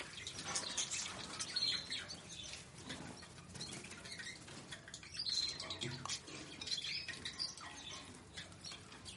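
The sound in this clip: Caged birds on a table give faint, sparse high chirps over a steady rustle and soft fluttering of wings.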